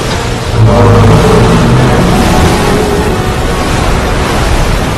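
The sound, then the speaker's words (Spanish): An overheating boat engine roars loudly and without letup, the dense, rumbling noise swelling after the first half second and staying heavy and constant to the end. “el motor se sobrecalienta”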